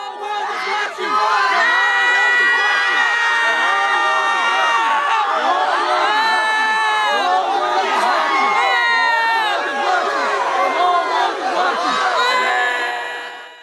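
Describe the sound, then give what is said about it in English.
Students chant in unison at a campus quadrangle sit-in protest as police pepper spray them, a loud, sustained crowd chant repeating a rhythmic phrase, with shouting voices mixed in. “The students clearly understand it as a symbolic act. You can hear them chanting, the whole world is watching, as they are filming it.”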